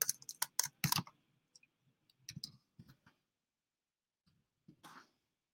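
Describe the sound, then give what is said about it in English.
Typing text on a computer keyboard: quiet bursts of rapid key clicks separated by short pauses, with a few isolated taps and no talk. “If there's a text that I want to add, and I want to type in a text,”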